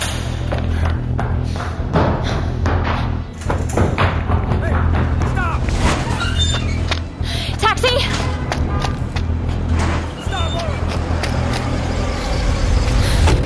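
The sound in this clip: Taxi cab driving, with a steady, loud, low engine and road rumble throughout, several thuds and taps, and people talking over it.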